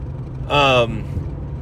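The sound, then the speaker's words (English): A car on a long road trip gives off a steady, low engine drone that runs through the whole stretch, with a brief tonal sound rising over it partway through. “I know I'm jumping around, but I'm just going to keep talking. I'm on a long drive here.”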